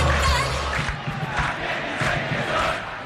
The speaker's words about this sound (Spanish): El público de Olimpia, Vito. Así es, Arturo, falta 10 para el final, se levantan de sus asientos, que obviamente van sintiendo lo que puede ser un nuevo triunfo en el Superclásico, por eso de momento festejan los inflables.